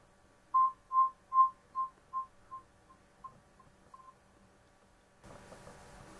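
An electronic phone call tone: a steady series of short, mid-pitched beeps that grow gradually fainter and die away, then give way to a soft hiss.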